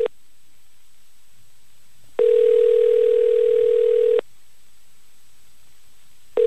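Ringback tone of a telephone call going unanswered: a steady mid-pitched electronic tone sounds for about two seconds between long silent gaps, with short fragments of the same tone at the very start and end.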